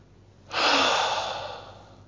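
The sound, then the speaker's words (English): A deep exhalation from the diaphragm: one long, breathy rush of air that starts abruptly after about half a second, then slowly fades over roughly a second and a half. No other sound accompanies it. “My exhalation is much deeper than my conversation. My conversation is wind passing through my pharynx. But my breath is coming from my diaphragm, from my lungs.”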